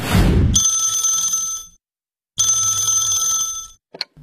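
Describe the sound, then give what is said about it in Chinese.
A telephone rings with an incoming call at a home in a residential compound in the morning. Two long, bright, trilling ring bursts are separated by a short pause, after a burst of noise at the start and before a brief click. “这天早上住在爱家小区的老何就接到了一个让他特别开心的电话”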